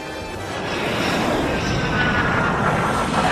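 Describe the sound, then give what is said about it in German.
An airplane landing in Costa Rica, a loud, broad rushing roar that swells slightly at first and then holds steady and continuous to the end. “Nach der Landung in Costa Rica geht es gleich mit einer Fähre weiter zur Isla Nubla.”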